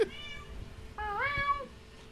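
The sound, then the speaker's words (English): A domestic cat meows twice. The first meow is short, and the second is longer and louder, with its pitch rising partway through. “My cat's talking.”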